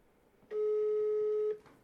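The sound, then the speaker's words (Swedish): A single steady ringback tone from an outgoing telephone call sounds for about one second. It is mid-pitched and even, and no other sound accompanies it. “Men då tänker vi bara sätta igång och börja ringa.”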